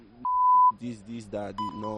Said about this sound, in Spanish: le han puesto el pitidito que lo hemos oído, pero parece que él se refiere a insultos